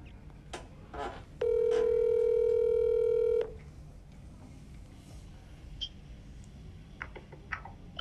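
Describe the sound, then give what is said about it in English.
A telephone call being placed: one steady electronic line tone lasts about two seconds, surrounded by a few faint clicks over low background hum. “let's get our guy, Verge, on the line.”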